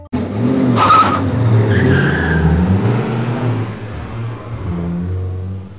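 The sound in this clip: A car engine revs loudly and steadily throughout, with a brief tire squeal and skidding partway through, as a young man takes his turn at the wheel on a long drive home.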